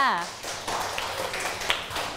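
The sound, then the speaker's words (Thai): Children clapping for a classmate in a classroom game: a light, uneven patter of small hands following a brief spoken voice, continuing fairly steadily. “ขอตัวแทนจากกลุ่มที่1ค่ะปรบมือให้เพื่อนเลยค่ะ”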